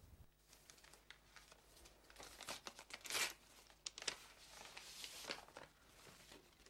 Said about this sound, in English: Feeling something in it, he pulls out the large envelope from the medical examiner's office. He tears it open for the first time.